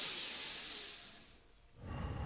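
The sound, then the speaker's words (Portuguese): People breathe during a breathing exercise. A long, airy exhale slowly fades almost to silence, then a fresh breath swells back in toward the end. “Parabéns pela respiração. Bom, de novo, que eu gostei. Os dois estão respirando direitinho.”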